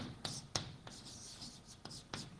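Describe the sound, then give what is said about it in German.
Writing on a surface, heard as faint, scratchy strokes: a few short bursts of friction separated by pauses, with no voices. “Ich schreibe euch mal was hin.”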